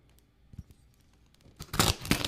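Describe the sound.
Packing tape rips off an inside-out priority box sealed with lots of tape: scattered small ticks and rustles, then a few loud, harsh tearing bursts near the end. No one talks.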